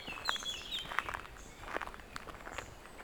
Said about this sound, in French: Dans l'épaisseur de la forêt, où une multitude d'oiseaux se protègent.